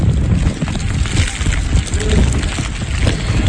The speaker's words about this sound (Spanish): Es el sonido del viento y de la nieve, sí, de la nieve cayendo en Valdezcara.